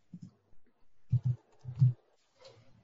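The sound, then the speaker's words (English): Muffled keystrokes on a computer keyboard as a player's name is typed into a daily fantasy football lineup: several soft, low thuds in irregular little clusters, with no talk over them. “Oh man, I, I typed in Hollywood.”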